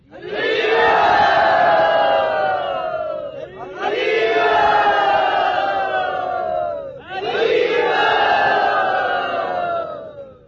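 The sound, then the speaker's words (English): A crowd at a devotional gathering loudly chanting "Hari Bol" in welcome, three long, roaring unison shouts, each swelling and then trailing off before the next begins. “we'd like to welcome Pancharatna Prabhu by very loudly and devotionally saying Hari Bol.”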